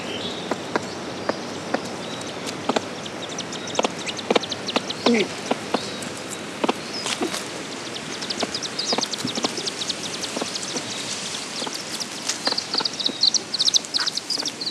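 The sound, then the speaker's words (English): A buff-banded rail and her chicks call in many short, sharp clicking notes mixed with thin high peeps, scattered irregularly and fairly faint throughout. “What about this buff-banded rail and her chicks?”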